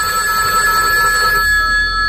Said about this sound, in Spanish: Sí, primero ha llamado y luego sonó el teléfono.